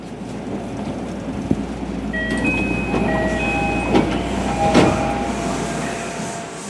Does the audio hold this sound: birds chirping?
no